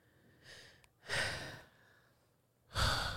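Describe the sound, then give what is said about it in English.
A person takes deep, airy breaths: three breath sounds separated by quiet pauses, the first softer and the later two louder and fuller, with no speech. “I got to take a deep breath, y'all. Right now.”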